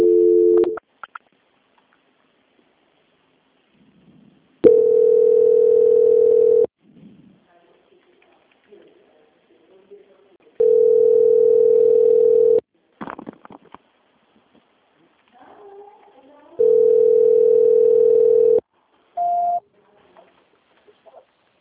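Telephone tones during a call transfer: three long, steady, mid-pitched beeps of about two seconds each, separated by quieter gaps with faint background sounds, then one short tone near the end.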